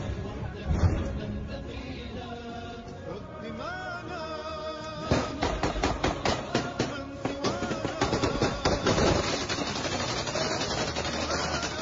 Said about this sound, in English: I don't know to which extent it's productive to be shooting bullets like this in like basically into the bricks.